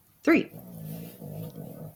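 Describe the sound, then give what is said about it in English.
A dog snoring: one sharp snort at the start, then low, rumbling, purr-like breaths that swell and ease off in a slow rhythm. “Happy purring or something going on there. That's a snoring dog.”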